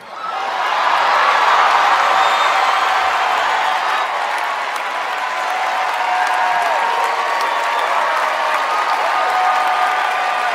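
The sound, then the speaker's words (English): A theater audience gives a standing ovation at the Tony Awards: loud, sustained applause from a large crowd with cheers and whoops mixed in. It swells quickly after a brief quiet start and holds steady to the end. “It's a rapturous standing ovation from these wealthy theater-going clowns.”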